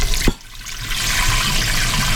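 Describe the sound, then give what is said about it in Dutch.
Water pouring into cooking pans: a brief knock near the start, then a steady rushing splash that runs evenly for about two seconds. “Zal ik een beetje water in alle pannetjes toevoegen?”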